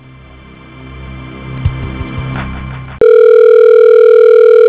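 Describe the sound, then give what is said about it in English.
A telephone tone sounds on a call line as the call is forwarded to voicemail. Low line hum with a few faint clicks gives way abruptly to a loud, steady, unbroken tone. “Let me forward you up to his voicemail. I'm not sure if he's there or not.”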